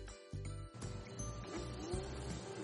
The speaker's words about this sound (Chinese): 快听，又来了，红色赛车又出现了。